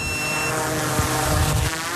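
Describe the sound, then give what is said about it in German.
A drone fitted with a thermal camera takes off: a loud, steady whirring propeller hum with a thin high tonal whine, continuous throughout with no pauses. “Fluggerät fliegt zum Haltepunkt.”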